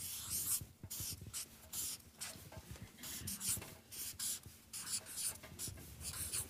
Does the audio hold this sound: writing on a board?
yes